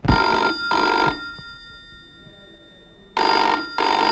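A telephone rings loudly and alone in a double-burst pattern: two quick rings, a pause, then another pair beginning and cut off at the end.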